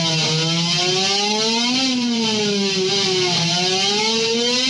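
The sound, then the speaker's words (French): A slide guitar mimics a race car at the 2010 Korean Grand Prix, its sustained, loud tone gliding upward as it accelerates, then dropping sharply twice as gears shift before climbing again. “Il passe les vitesses, il accélère, il rétrograde quand il faut, avec sa slide guitare.”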